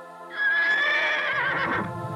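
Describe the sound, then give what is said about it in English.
A horse neighs in one long, loud whinny that wavers in pitch and rings out alone. “"Oh, please let me go," says the horse.”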